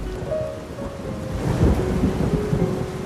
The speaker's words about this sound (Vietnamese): Về Du nhá, trời mưa rồi.